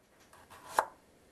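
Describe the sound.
One crisp knife chop on a cutting board, cut at a kitchen sink counter that is too high for the cook. A couple of soft scraping taps come before the single sharp, faint knock.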